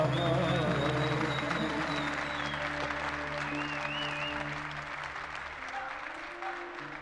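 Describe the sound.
Audience applause at a live performance of a Lebanese song: dense, loud clapping that gradually thins and softens, with voices rising above it.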